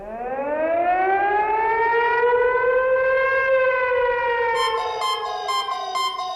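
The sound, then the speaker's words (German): A civil defense siren sounds during a test alarm with a loud, steady wail. Its pitch rises at the start, holds, then sinks gently, with a pulsing tone joining it near the end. “wenn Sie eine Sirene heulen hören oder Ihr Handy plötzlich Alarmtöne von sich gibt”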